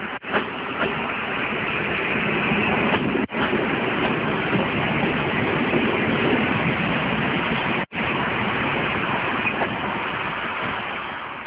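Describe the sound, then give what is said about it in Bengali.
A train arriving at a station, heard as a steady, heavy, loud rumbling roar that holds throughout, broken only by two brief dips. “চলে আয়, train চলে আসছে।”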